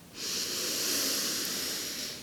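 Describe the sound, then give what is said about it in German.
One deep breath is drawn slowly through the nose during a guided breathing exercise. It is a single steady, airy hiss of about two seconds that swells gently and then tails off. “Ein letztes Mal atme ganz, ganz tief in deine Hände ein”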